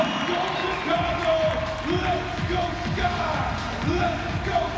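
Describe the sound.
Crowd noise at a WNBA game, a Chicago Sky home game against the Connecticut Sun, with steady applause and cheering over a repeating low thumping beat.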